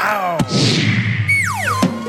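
A football is kicked hard, a sharp thump followed by a whooshing flight that falls in pitch, then a second impact, all over a steady low hum.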